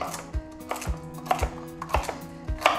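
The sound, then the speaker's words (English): A knife chops chard stalks into roughly two-centimetre pieces, making five steady, evenly spaced dull thuds, faint over a soft continuous tonal background. “So you want to chop the stalks in about 2 centimetre bits.”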